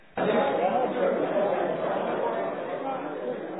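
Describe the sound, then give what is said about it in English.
Crowd chatter from over 200 amateur radio hamfest attendees, a dense, continuous murmur of overlapping voices that starts abruptly and holds steady, sounding dull and muffled. “What's that noise you say? Well, that's not noise. It's the sound of over 200 amateurs attending Sunfest 2017.”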